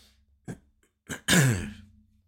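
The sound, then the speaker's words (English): A person coughs a few short times, with a rough, throaty quality. The last burst is the loudest and longest and trails off gradually. “Sorry. A little cough, cough, cough there.”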